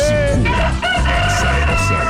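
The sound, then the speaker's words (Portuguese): A rooster crowing loudly: a long, strongly harmonic call with a few wavering, drawn-out notes that fills the full two seconds. “Esse é o Rancho 97, o programa que quando começa o galo tá escovando o bico para cantar”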